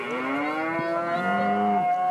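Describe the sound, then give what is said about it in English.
Hereford cattle lowing at a livestock show ring for pedigree herds: one long, drawn-out moo, rich and buzzy, holding steady for about two seconds at a fairly loud level. “Looking at Carberry pedigree herds. People have been brushing their cattle for hours. They walk around the ring.”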